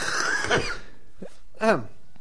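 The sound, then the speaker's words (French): Coughing in a studio with the microphones left open: a couple of short, rough coughs break in after a stretch of talk, with a voice sounding briefly between them. “Mais arrêtez de tousser, quoi. Les micros sont ouverts, ça se fait pas.”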